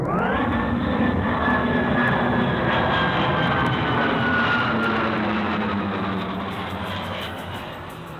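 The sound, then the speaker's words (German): Sci-fi time beam powering up aboard a spaceship: a loud, sustained roaring whoosh like a jet engine, with a faint whine that drifts slowly downward, easing off slightly toward the end. “wenn Sie soweit sind, können wir den Zeitbeam jetzt starten.”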